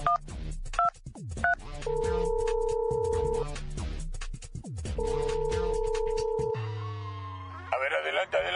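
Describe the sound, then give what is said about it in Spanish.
Touch-tone dialing of a telephone number for a test call to an emergency line: a quick run of keypad beeps, then long, steady dual-tone signals, with voices over parts of it. “A ver, voy a marcar.”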